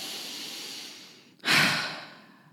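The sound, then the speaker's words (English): A deep breath taken during a guided breathing exercise: a long, airy inhale tapers off, then after a brief pause comes a strong, sighing exhale that fades out. “And take another deep breath.”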